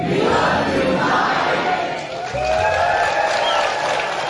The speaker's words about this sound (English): And the Telluride audience were prompted to let Mike Lee know just how much they appreciated him.